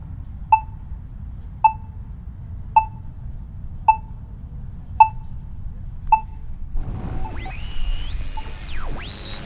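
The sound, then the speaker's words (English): A pedestrian crosswalk signal beeps six times, each a short bright tick about a second apart, before gliding electronic tones sweep up and down over a low rumble. “Walk sign is on. Walk sign is on. Walk sign is on. Walk sign is on. Walk sign is on.”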